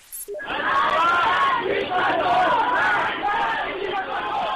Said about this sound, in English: That's the sound of protests in Iran's capital, Tehran, as police clashed with opposition supporters.